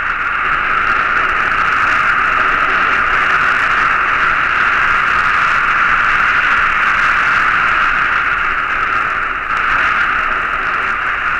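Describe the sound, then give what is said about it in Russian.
Cosmic white noise picked up by a radio telescope: a loud, steady hiss of static that holds unchanged throughout, with one brief dip near the end. “долетают взрывы рождающихся звезд, голоса галактик. Это белый шум космоса.”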